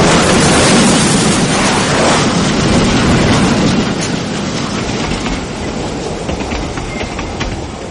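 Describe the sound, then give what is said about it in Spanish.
A troop train pulling away: loud, dense rumbling and clattering of wheels on the rails, filling the whole clip and slowly growing fainter toward the end. “El tren se aleja”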